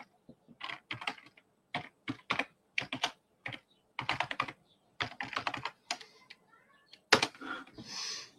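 Typing an email address on a computer keyboard: irregular bursts of quick, fairly soft keystrokes with brief pauses between groups, continuing throughout.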